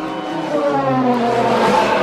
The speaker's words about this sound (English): when we get to the Falcon, I'm gonna have to hit the braking thrusters awfully hard.